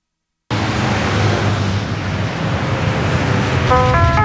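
Steady road noise inside a moving taxi, a low, even rumble and hiss after a short silent start, with a few brief electronic tones near the end.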